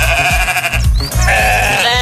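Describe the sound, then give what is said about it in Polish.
Bleating from a stray ram, a lost one found wandering in a rural municipality. The calls are steady and fairly loud, with a nasal, wavering tone that carries throughout. “Nietypowe ogłoszenie, które dotyczy zagubionego barana.”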